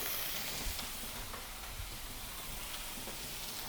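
Shrimp sizzle with butter in a pan while being cooked for shrimp and grits, giving a steady crackling hiss with small pops throughout and no voices.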